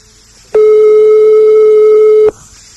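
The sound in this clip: A telephone ringback tone sounds while a call waits to be answered. It is a single steady, mid-pitched tone lasting just under two seconds, starting and stopping abruptly, with quiet line hiss before and after.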